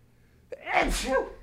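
A single human sneeze: a faint catch of breath, then a loud, breathy burst that trails off quickly.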